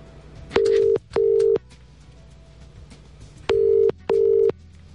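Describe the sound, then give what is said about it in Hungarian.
A telephone line rings out as a radio quiz winner is called. Four steady, mid-pitched electronic tones sound in two pairs with a pause between the pairs, and no voices are heard. “és már is hívjuk a szerencsés nyertest”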